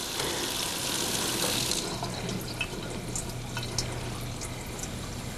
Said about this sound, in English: looks down and turns off the water.